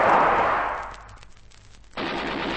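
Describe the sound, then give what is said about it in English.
Gunfire in a combat scene: a loud, noisy blast that fades over about a second, a short quieter gap, then another burst starting abruptly and holding steady. “They've opened fire on him. Shoot quickly.”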